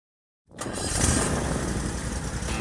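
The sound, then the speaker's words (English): A Toro Z-Master 4000 zero-turn mower starts up: the engine catches abruptly after silence and settles into a steady, even rumbling idle with no voices. “That's the sound of a day starting out right. I hear it every time my new Toro Z-Master 4000 Zero Turn starts up.”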